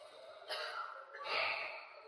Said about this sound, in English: Let's all take a big breath. And one more.